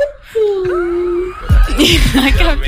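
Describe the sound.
A person's voice imitating a cat's meowing while talking to a cat, first a long steady high-pitched tone, then a series of short wavering meow-like calls that rise and fall in pitch.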